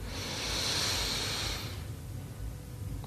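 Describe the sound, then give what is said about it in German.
A deep inhaling breath during a calm breathing exercise: a faint, soft hiss of air that swells for under two seconds and then fades into quiet background noise. “Dritten tiefen Atemzug und atme ein.”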